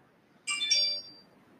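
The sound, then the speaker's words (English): A phone message notification goes off as one brief, bright electronic chime of two quick overlapping tones, clear and alone over faint background hiss. “He's getting a few messages. Oh, yeah, my phone's not what's going off.”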